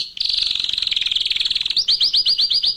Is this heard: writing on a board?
no

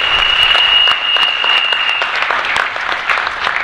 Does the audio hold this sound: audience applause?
yes

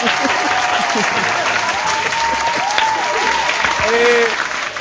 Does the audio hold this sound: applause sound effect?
yes

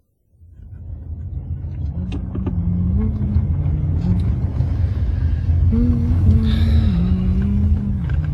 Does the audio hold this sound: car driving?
yes

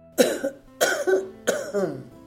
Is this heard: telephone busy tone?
no

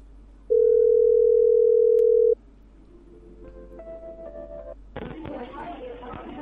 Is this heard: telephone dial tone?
yes

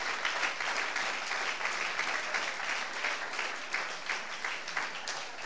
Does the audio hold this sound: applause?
yes

